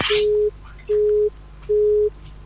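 A telephone busy tone on a phone-in line after a caller is cut off, three steady mid-pitched beeps of equal length separated by even gaps, loud and alone.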